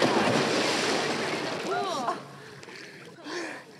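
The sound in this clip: A splash as a person is pushed into a swimming pool: a burst of broad, rushing water noise that slowly fades, with people talking over it and after it.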